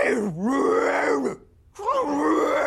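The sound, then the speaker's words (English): A voice imitates an imagined Cliff Beast creature with two long, rough guttural groans separated by a short silence, the throaty growl wavering in pitch and fairly loud throughout. “Sound idea for a Cliff Beast? Here's Beast 1.”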